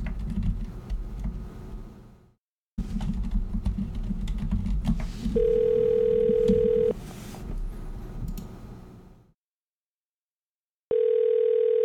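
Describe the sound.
A steady telephone dial tone sounds after a call disconnects, coming in two long unbroken stretches that stand out loudly against fainter background noise and tapping.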